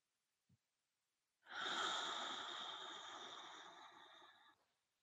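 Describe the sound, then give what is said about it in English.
A single slow breath exhaled through the mouth during a guided relaxation exercise: a soft, steady airy hiss lasting about three seconds that thins out at the end, alone and quiet, after a tiny click. “As you breathe into your nose and out through your mouth. And do like two repetitions, not forcing it.”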